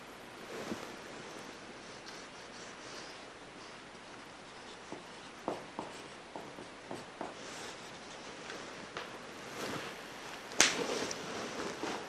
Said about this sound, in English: So, what is it that we are missing in this one? Watch. I will write it for you.